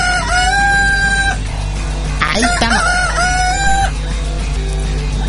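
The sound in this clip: Chickens crow and cluck in a video game, two long strained crows with loud clucking and squawks in between, over a steady background hum.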